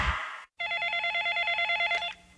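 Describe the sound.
A telephone rings once with a steady, warbling electronic tone lasting about a second and a half, after a brief breathy sound and a short silence.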